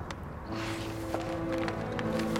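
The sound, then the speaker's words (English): A man's footsteps on a secluded, moonlit path, quickening as he follows a woman; a few soft, irregular taps sound beneath steady, sustained music. “On a secluded, moonlit path, a man's footsteps quicken behind those of a blonde-haired woman wearing a long, light-coloured coat.”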